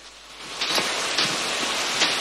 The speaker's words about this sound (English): Drenched by another downpour